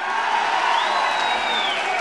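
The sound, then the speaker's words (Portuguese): Crowd applause and cheering for vice-president Geraldo Alckmin: a dense, loud, steady wash of clapping and crowd noise, with a sustained whistle-like tone rising out of it partway through. “Saudar o vice-presidente e pedir uma salva de palmas, Geraldo Alckmin.”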